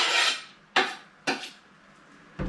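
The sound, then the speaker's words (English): Garlic is tipped from a bowl into a stock pot: a soft scrape, then three sharp clinks of a utensil, all quiet and spaced apart. “and some garlic. And that's actually what's in this bowl here. So I'm going to add this into the stock pot here.”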